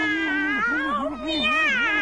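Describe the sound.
A human voice imitates a cat's meow in one loud, drawn-out call whose pitch wavers up and down in a whiny, caterwauling way for about two seconds.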